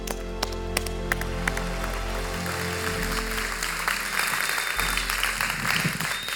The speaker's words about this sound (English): let's give a warm Crosspoint welcome to Pastor James Savage.